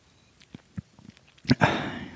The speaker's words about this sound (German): Und jetzt muss ich ganz kurz mal am Whisky riechen und einen Schluck auch nehmen.